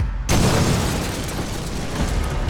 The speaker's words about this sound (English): an explosion shook the building, shrapnel bursting through the door.